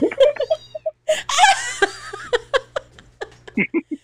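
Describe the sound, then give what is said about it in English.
Cat sounds play in a Justice League video game: many short, high, repeated meows and mews in quick, uneven succession, some louder and longer than others. “We're gonna have to hear a cat for a little while.”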